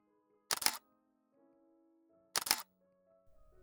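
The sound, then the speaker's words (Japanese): Camera shutter taking a photo, two sharp mechanical clicks about two seconds apart, each brief and bright, with near silence and a faint low hum between them. “それではちょっと写真を撮らせていただきますね。”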